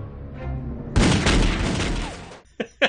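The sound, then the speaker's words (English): Gunfire at a hanging electric Santa display: a loud, dense volley of shots lasting over a second, followed by two short, sharp bursts. “So what happens is when she says shoot the Santa, they shoot this Santa display that's hanging. So it's an electric display.”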